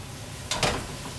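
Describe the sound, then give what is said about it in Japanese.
Vegetables stir-fry in a pan for yakisoba in a small rented kitchen, a soft, steady sizzle with one brief scraping stir partway through. “そろそろいい感じまあだいぶ野菜も縮んで傘が減ってきました”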